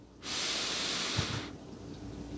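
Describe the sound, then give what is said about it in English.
A deep, slow breath drawn in during a guided relaxation exercise: one long, airy inhalation with a steady hiss that lasts just over a second, then eases off into quiet, with no talking over it. “So breathing in deeply and slowly,”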